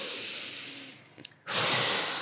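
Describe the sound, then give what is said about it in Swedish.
Slow, deep breaths, loud and airy with a broad hissing rush. One long breath fades into a short lull with faint soft catches, then a second, stronger breath swells and slowly tapers. There is no talk. “det snabbaste sättet är ju att ta 3 långsamma andetag”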